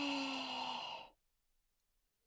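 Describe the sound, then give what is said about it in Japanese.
A single long, breathy exhale, like a sigh with a faint voiced tone, lasts about a second during a guided deep-breathing exercise, then fades to near silence. “深呼吸するね。はい、吸ってー。吐いて”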